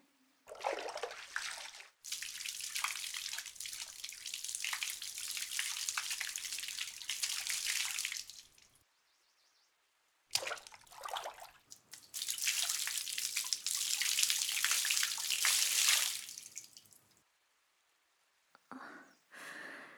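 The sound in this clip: Water poured over hair to rinse it, in two long gushing streams separated by a short pause, each ending in drips and quiet gaps, with no talking.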